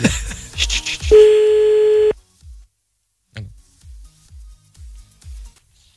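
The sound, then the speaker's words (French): Telephone tones while dialing a listener for a call: quick dialing beeps, then a steady held tone that cuts off abruptly, followed by several short, low repeated pulses. “C'est celui qui termine par 46. Bon, on va l'appeler.”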